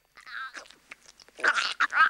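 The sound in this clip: Someone chewing and swallowing something they were urged to spit out, heard as several bursts of wet, crunchy chewing and mouth noises, mostly alone and fairly quiet.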